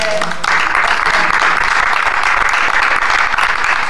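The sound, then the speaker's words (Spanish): Audience applause as a show signs off. Dense, loud, continuous clapping fills the whole stretch at a steady level. “Un aplauso por la fe.”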